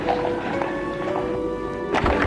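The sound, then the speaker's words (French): Horse hooves as a girl rides on horseback: a steady, light clip-clop beneath sustained tonal music, with a louder burst of sound near the end. “Il suit la fille qui est à cheval.”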